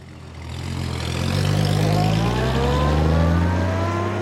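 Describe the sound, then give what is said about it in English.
A car engine accelerates as the car drives through downtown Milwaukee on an early evening in 1954, swelling from quiet into a loud, steady drone whose pitch climbs. “It's early evening on December 17th, 1954, and Miller Brewing President Frederick C. Miller is driving through downtown Milwaukee.”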